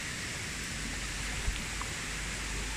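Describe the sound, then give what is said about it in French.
A small river flows over little waterfalls, making a faint, steady rush of water. The hiss is even and continuous, with no voices. “Je viens de manger au bord de l'Argental qu'on entend couler là. Je suis tout près de jolies petites chutes les pieds dans l'eau.”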